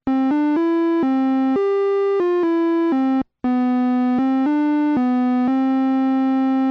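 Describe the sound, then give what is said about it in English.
A second melody synth voice on an OM84 synthesizer plays a short tune of bright, buzzy sustained notes, stepping between pitches with even lengths, broken by one brief pause near the middle before the melody resumes and holds its last note. “There's also a second melody synth that sounds like this.”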